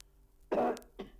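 A person coughs twice: a loud, harsh burst, then a shorter, weaker one, over a low steady hum with no talk.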